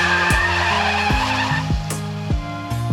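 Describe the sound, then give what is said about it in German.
A car accelerating away hard, with loud tyre noise. The engine pitch climbs and drops back several times in quick succession. “Du stöpselst jetzt deine Ohrstöpsel ein, während dein Vater aufs Gas tritt.”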